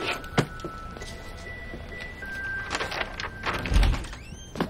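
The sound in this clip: A clinic exam room door opens with a few soft thunks and clicks over a steady background hum.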